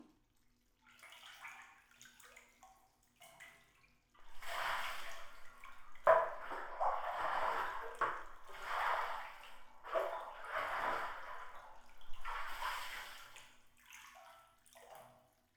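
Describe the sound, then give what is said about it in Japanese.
Hot water is poured over a body in a bath, making soft splashing pours in several separate bursts with quiet gaps between them. The whole sequence stays faint and gentle, with no voices. “もう少しお湯をかけて体を温めようね。”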